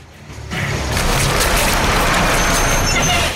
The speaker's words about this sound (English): The truck heads back, crushing some zombies beneath its wheels as Riley clambers towards the roof.